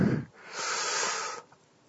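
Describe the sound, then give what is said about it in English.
A sharp, breathy gasp: an airy, drawn-in breath lasting about a second after a brief low rustle, then trailing off into quiet. “when you gasp in my ear like that”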